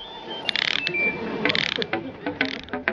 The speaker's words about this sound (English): Now, tighten the bolts.